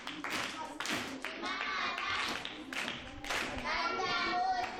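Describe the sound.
Clapping from an audience congratulating children who answered riddles, a steady patter of hands that runs through the whole clip, with children's voices mixed in.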